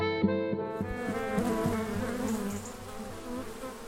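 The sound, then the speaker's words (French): Bees buzz in a field with colourfully painted beehives, an apiary of 150 hives in the Pays de Châteaugiron, Ille-et-Vilaine. The buzzing is a faint, continuous, harmonic drone that wavers slightly in pitch. “on aperçoit les ruches là qui sont peintes de toutes les couleurs euh, au bout du champ.”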